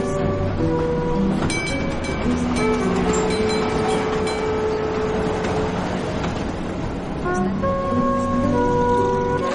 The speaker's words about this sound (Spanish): Más tarde el tranvía circula por el centro de la ciudad, pasando entre altos edificios y numerosos coches.